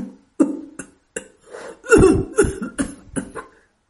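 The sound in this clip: An old man has a violent coughing fit: many harsh, separate bursts that grow louder and rougher midway, then fade in a few weaker coughs.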